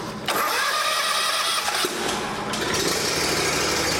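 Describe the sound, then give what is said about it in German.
A ride-on lawn mower starts up and drives out of a machine shed: the engine catches after a brief start, then runs loud and steady, its tone shifting partway through as it pulls away. “startet den Aufsitzmäher, fährt raus aus der Maschinenhalle”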